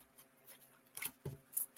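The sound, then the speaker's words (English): Soft papery rustling of an oracle card deck being shuffled, with a few brief, faint slaps as two cards drop out; quiet throughout. “oh, two cards dumped out here for you. Oh, you got two cards.”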